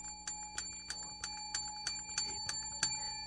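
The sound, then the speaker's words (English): A bell ringing in a fast, even series of about nine bright strikes, each tone ringing on between hits. The sound stays faint and steady, with no voices. “How annoyed are we all going to be collectively together to have to hear the sound of this bell”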